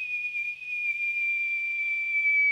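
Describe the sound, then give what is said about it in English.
A long, low whistle, blown by a man to call his dogs back in the snowy dark. It is one sustained, clear tone that holds a nearly steady pitch throughout and sounds fairly faint and alone. “A long, low whistle fills the air,”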